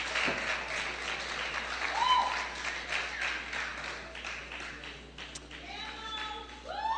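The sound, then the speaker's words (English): An audience claps steadily and warmly for a performer being welcomed at a gospel gathering. The applause holds strong for about five seconds, then thins out as voices come through near the end. “Give it up one more time. Give God some glory and welcome.”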